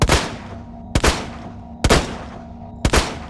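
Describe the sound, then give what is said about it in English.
Pistol gunfire: four sharp, loud shots spaced roughly a second apart, each one cracking sharply and then fading in a short decaying tail before the next. “Oh, so you fire the pistol many rounds in rapid succession.”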